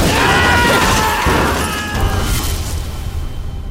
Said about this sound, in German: In Brüssel ist am Abend eine Bombe im Hauptbahnhof explodiert.